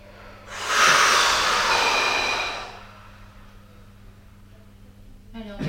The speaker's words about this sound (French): Allez, on vide les poumons. On inspire, on rassemble toutes nos tensions de manière globale et symbolique.